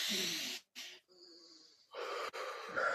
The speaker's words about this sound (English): So what I always tell people is we take a deep breath together, me and you, Okay. on three.